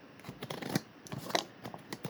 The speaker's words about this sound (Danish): Men nu trækker vi altså lige et kort.